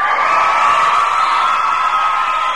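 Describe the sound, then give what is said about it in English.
A large, happy crowd forming the Irish jury in Dublin cheers and chatters as it gets ready to vote, a dense, steady wash of voices that keeps on throughout. “That's the sound of the Irish jury, a large, happy crowd are all ready to vote.”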